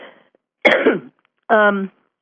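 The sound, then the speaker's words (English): Someone getting over a cold gives one sharp, rough cough between bits of voiced sound, including a brief harmonic vocal burst right after it. “Excuse me. I'm sorry. You all right? Getting over a cold.”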